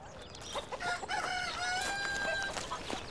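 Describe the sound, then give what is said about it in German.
Domestic chickens in a flock cluck busily with overlapping calls, and a rooster-like crow rises above them. The sound stays fairly loud and steady throughout, with no talking. “Da drüben wohnt ein ganzer Hühnerhaufen.”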